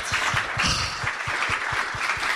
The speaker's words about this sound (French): On peut applaudir Mélissa ?